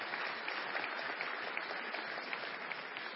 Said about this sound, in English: Why don't we put our hands together and welcome friends here?